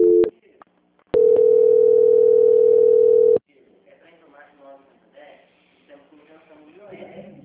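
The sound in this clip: A telephone tone plays while a call is transferred to a bank's quality-control line. A short tone burst comes first, then a steady, loud mid-pitched tone holds for about two seconds and cuts off abruptly before people start talking.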